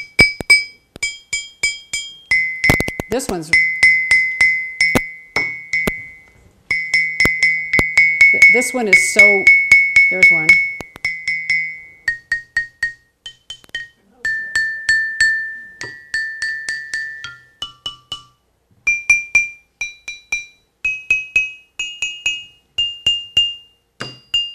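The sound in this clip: A two-toned percussion instrument lying flat on a table is struck many times on its top and on its side. Bright, ringing, glassy-metallic tones come in quick runs at two distinct pitches, with a few spoken words in places.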